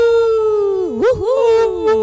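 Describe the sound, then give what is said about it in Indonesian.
A human voice imitates a dog barking outside at night, drawing out a long tonal 'au' that wavers and dips in pitch midway before carrying on. “gonggongan anjing di luar au-au”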